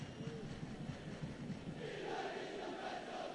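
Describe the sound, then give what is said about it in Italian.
Bologna football supporters chant against Milan during a match, a faint, muffled crowd chant with a rough, windy wash that swells a little louder in the second half. “Cori d'amore del pubblico bolognese contro i tifosi e la squadra del Milan.”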